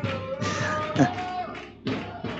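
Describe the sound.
Football fans chant in a stadium during a match, a dense roar of massed voices with a few swelling rhythmic bursts and a drop in the middle before the chant surges again.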